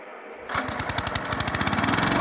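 A tractor engine starts up again after the key is turned. It catches abruptly and then runs in a loud, steady, rapid chugging rhythm.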